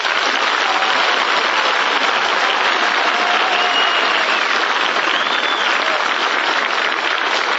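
A studio audience in Hollywood applauds to welcome a show's host. The dense, even clapping holds at a constant loud level from start to finish, with no voices over it.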